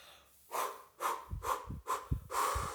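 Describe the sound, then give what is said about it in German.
Forceful bursts of breath are pushed out through the mouth during a breathing exercise, about five short, soft, breathy puffs in a steady rhythm, each rising and dropping quickly, with no talking. “Atem anhalten und dann mit den Handflächen alles abtrommeln. Ganzen Lungenbereich, Bronchienbereich, den Brustbein, schöne aktivierende Übung und dann stoßweise durch den Mund wieder ausatmen.”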